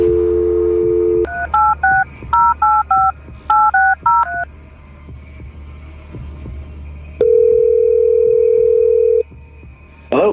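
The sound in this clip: Telephone keypad tones as a number is dialed: a steady dial tone first, then quick bursts of clear beeping tones in several groups, followed by a long steady tone and a brief sound at the end.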